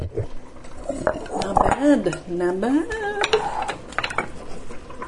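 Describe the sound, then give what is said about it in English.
Clattering dishes and clinking as bowls are taken out for pasta, with ringing knocks and scrapes mixed under a person talking. “And I should get out some bowls for our pasta.”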